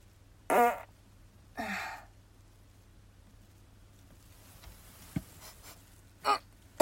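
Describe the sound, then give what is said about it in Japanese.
Farts: two clear, brief bursts about a second apart, followed by a few fainter, short sounds and another short burst near the end. “おなら出します。”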